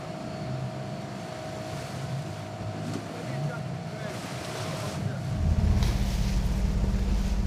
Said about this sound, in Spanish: Atracar un barco al lado del otro es peligroso. Por eso emplean un bote auxiliar para intercambiar mercancías.